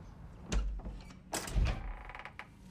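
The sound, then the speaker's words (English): A door slammed shut in fright as a crocodile snaps: a couple of dull, low thumps with a short rattle, fairly quiet overall. “A crocodile snaps at them, and they recoil in horror, slamming the door shut.”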